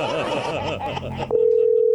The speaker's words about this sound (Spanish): Vamos a llamar a otra persona.